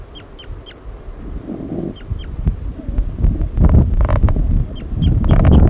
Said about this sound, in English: Male? Giving flight calls.